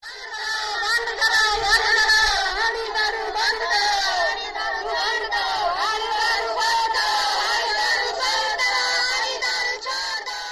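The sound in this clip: Village women near Ranchi chant slogans against liquor while marching in a procession: many voices shout in loud, sustained unison, with phrases rising and falling in pitch and barely a pause.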